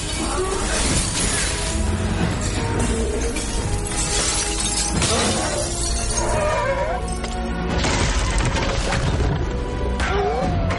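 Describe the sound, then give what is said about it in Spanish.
Glass shatters as a dragon bursts through a bank's glass dome: a dense, loud, continuous barrage of breaking and crashing debris. “Escupe una bocanada de fuego, se pone en pie y sale por la cúpula de vidrio del banco.”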